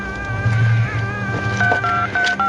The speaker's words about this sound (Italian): Potrei fare una telefonata.